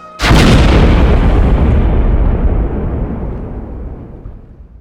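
A grenade explosion sound effect: one sudden, loud blast that starts at once and spreads into a broad, roaring rumble, fading slowly over several seconds.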